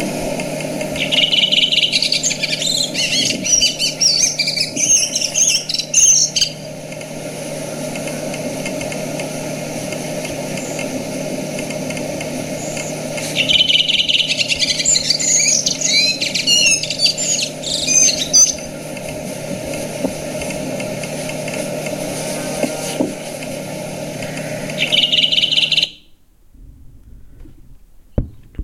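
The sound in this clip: Redwing song comes in two long bursts of quick, high twittering phrases and a brief final snatch, separated by pauses. A steady low engine hum runs under it throughout.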